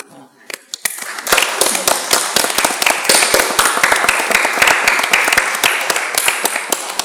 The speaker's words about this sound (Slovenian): Tudi za vas en aplavz.